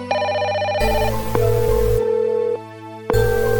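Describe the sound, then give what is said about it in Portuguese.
A telephone rings while someone places a call. Loud, electronic ringtone bursts repeat alone in a steady pattern, with a short pause between them. “Pode crer, vou ligar nele aqui então”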